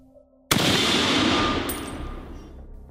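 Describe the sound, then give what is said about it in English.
A handgun fires a single sharp, loud blast that hits abruptly after a quiet moment, then rings out in a long, slowly fading decay. “The gun went off in my hand, the recoil almost sending me flying.”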